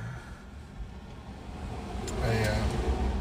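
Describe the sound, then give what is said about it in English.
Truck driving past outside: a broad, low engine rumble mixed with road noise that slowly swells louder over a few seconds. “Ooh, there's another truck. There's trucks everywhere around here.”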